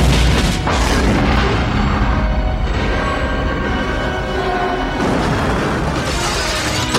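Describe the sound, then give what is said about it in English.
A helicopter falls into a courtyard with a fountain and explodes: a loud, deep booming blast with heavy rumbling, then a second surge of roaring noise near the end. “The helicopter falls and explodes.”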